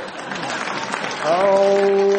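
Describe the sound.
A quiz show studio audience breaks into applause and reaction. The crowd noise is moderate at first, then swells louder in the second half as voices rise over the clapping.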